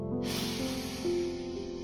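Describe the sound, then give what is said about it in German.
A deep breath in: a steady, airy inhaling hiss that starts abruptly and holds for over a second over soft sustained musical tones. “Und jetzt nimm einmal drei tiefe Atemzüge. Atme ein”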